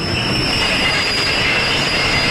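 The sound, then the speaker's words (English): A train pulls into a station with loud, steady rumbling and rail noise, and a high, sustained wheel squeal runs through it from start to finish. “And stop for a minute as the train pulls into the station and opens its doors with a whoosh.”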